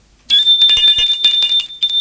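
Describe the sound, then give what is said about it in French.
A doorbell rings at the front door. The bright metallic ringing starts abruptly and trills with rapid repeated strikes for nearly two seconds, loud and alone. “L'on sonne à la porte d'entrée.”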